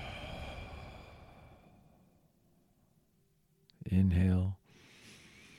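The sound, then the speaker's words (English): A deep breath during guided meditation: a faint, drawn-out inhale through the nose, then a short, loud, voiced exhale. A voice speaks briefly before the breath. “So we'll inhale deep through the nose. Exhale everything out.”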